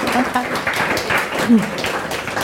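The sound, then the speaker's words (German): An audience at a German-language discussion event applauds two guests, with dense, steady clapping and a voice briefly heard over it. “Ich bitte um einen herzlichen Applaus für die beiden Gäste.”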